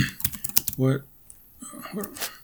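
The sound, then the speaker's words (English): Typing on a computer keyboard: a quick run of light key clicks, with a voice talking alongside. “I could probably type that up, look that up real quick, but let's do that real quick.”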